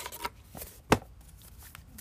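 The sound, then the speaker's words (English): Soft shuffling of a deck of affirmation cards, with faint papery rustles and a few light flicks around one sharper snap of cards. “All right, that was too many cards popping out.”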